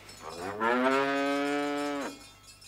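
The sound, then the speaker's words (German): A cow lowing in the countryside on a summer evening: a single long, loud moo that holds a steady pitch for over a second before breaking off, with no voices. “Kühe. Das auch noch. Eben auf dem Lande.”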